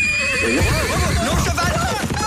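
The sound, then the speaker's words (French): A horse neighs for a horse-drawn carriage ride, a loud, long whinny whose pitch wavers up and down for about two seconds. “T'es vraiment fait de me payer une promenade en calèche?”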